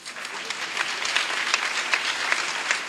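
A church audience applauds, a dense, steady wash of many hands clapping that holds at an even loudness for the full three seconds, with no clear break or build.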